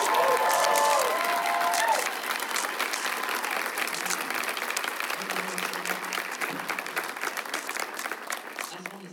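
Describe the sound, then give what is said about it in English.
Sustained audience applause at a live folk fiddle music show: a dense, steady patter of many hands clapping, slightly louder for the first two seconds and then holding even, with voices talking underneath. “Before we do the last show, round of applause.”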